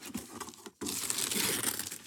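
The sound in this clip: Wrapping paper tears and crinkles as a gift, a boxed Feyenoord edition of Cluedo, is unwrapped. A first rip is followed by a brief pause, then a long, loud stretch of continuous tearing and crumpling.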